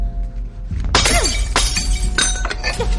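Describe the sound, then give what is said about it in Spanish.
Glass shatters as a fire cabinet's glass case, which holds an axe, is smashed with a metal fire hose nozzle aboard a sinking ship: a loud crash, then shards tinkling and scattering over a steady low rumble. “Agarra la boca metálica de la manguera y golpea el cristal que guarda el hacha.”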